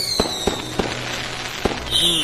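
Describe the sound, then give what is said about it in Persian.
Fireworks explode in four sharp, unevenly spaced bursts, with a high whistling tone at the start and another whistle near the end. “دوست دارم بدونم چرا آتیش بازی ها رنگای مختلفی هستن.”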